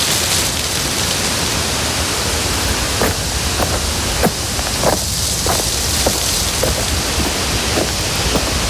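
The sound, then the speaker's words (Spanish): Soft wind blows through an olive grove in Jaén as a continuous, fairly loud rushing hiss, broken now and then by a few scattered light taps and crackles. “Una historia que empieza hace 3 años, en 2022, en un olivar de Jaén, donde sopla un viento suave.”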